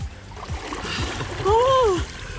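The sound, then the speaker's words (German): People plunging into ice-cold water with a splash, a broad rushing surge of water while a voice cries out loudly in the middle, over a few low thumps. “3, 2, 1, los! Ah! Und im Wasser sind sie.”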